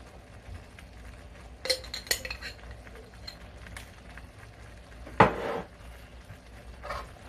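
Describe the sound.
Utensil clinks and scrapes in a pan as jerk seasoning is stirred into shrimp pasta, a few sharp metallic clanks over a quiet, low background.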